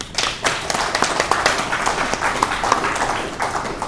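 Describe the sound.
Applause from an audience welcoming a panel at a meeting: steady, crisp hand clapping with many individual claps, moderately loud and without talk.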